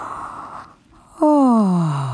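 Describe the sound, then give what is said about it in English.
A yawn: after a brief hush, a loud voiced exhale starts abruptly and slides steadily downward in pitch for about a second as it tapers off. “And then came a yawn”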